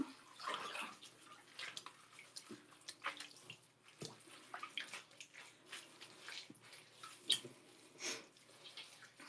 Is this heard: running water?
yes